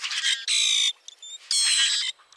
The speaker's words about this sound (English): Some birds sound almost mechanical, like the metallic song of the common grackle,